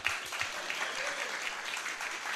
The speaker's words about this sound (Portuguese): Vamos bater palmas aí